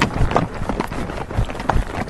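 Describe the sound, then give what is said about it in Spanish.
A ridden horse sets off at a trot, giving a steady, rhythmic run of dull hoof beats at moderate loudness. “Resumo, las dos riendas con una mano, la otra nos agarra. Venga, pues salimos. ¡Trote! ¡Hop!”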